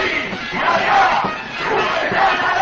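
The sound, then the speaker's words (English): A crowd of thousands cheers and shouts in a Lima plaza in Peru, welcoming a political candidate at a rally. The roar is dense and loud, swelling and dipping slightly without a break. “Thousands of Peruvians packed a Lima plaza to give a warm welcome to Lourdes Flores”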